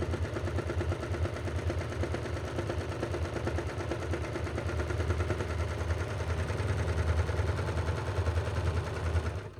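A serger runs steadily, sewing a two-thread flatlock seam for underwear, with a loud, continuous, rapid mechanical chatter of stitching. The rhythm stays even throughout, with no talk.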